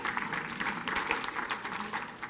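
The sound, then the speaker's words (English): A church audience applauds during a sermon, giving a big hand to members: a soft, continuous wash of many hands clapping, fairly quiet and steady throughout. “All right, thank you guys. Give them a big hand clap.”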